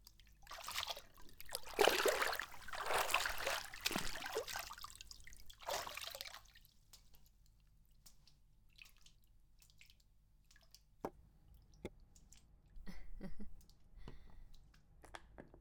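Water splashes and trickles while feet are washed, with a few louder bursts of pouring and sloshing early on, then quieter scattered drips and small splashes.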